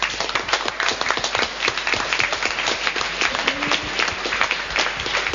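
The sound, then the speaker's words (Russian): Applause from a group in a training session as participants clap for one another: a dense, steady patter of many hands that stays loud and continuous from start to end. “Давайте всех вернем опять. Объединимся, похлопаем друг другу.”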